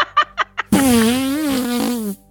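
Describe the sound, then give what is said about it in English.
A loud, buzzing fart noise imitated by a woman blowing into her bare arm: one sustained raspy blast about a second and a half long, after four short breathy bursts. “and just sounding like just horrific farting noises”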